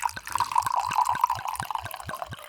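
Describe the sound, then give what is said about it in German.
Wine is poured from a bottle into a glass, producing a rapid, even series of liquid glugs over a bright, steady splashing tone that runs through the whole pour without voices. “gib mir eine Sekunde Zeit und schenk mir noch mal einen Schluck Wein nach”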